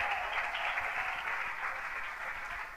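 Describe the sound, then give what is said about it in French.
A church audience applauds in acclamation of the Lord with steady, dense clapping that holds at an even level for a few seconds. “J'ai cru m'entendre dire que nous acclamons très très fort le Seigneur.”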